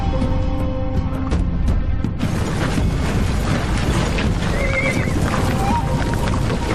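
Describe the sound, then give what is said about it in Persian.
Horses of arriving cavalry neigh over a dense, continuous din of hooves and commotion, with a high whinny standing out near the end. “سوار نظام دارن میرسن.”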